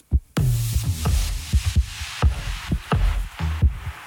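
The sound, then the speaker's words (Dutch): A human heartbeat sounds as many deep, paired thumps in a steady rhythm, loud and alone, with a soft whooshing noise between beats. “Dit is de hartslag van Jacqueline Blom, actrice.”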